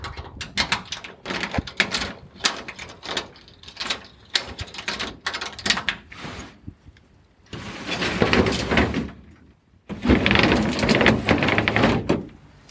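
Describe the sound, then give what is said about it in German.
A roller shutter being opened at a Vienna municipal housing block gives several seconds of quick, uneven metallic knocks, followed by two longer bursts of loud rolling, grinding rattle separated by a short pause. “Das heißt, ein Shutter wird geöffnet.”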